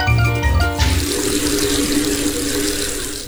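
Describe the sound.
Well water runs and splashes steadily as a boy bathes in a radio drama scene, a continuous gushing stream that begins after a short tonal sound.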